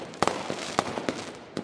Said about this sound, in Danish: men i hvert fald så er det lyden af fyrværkeri.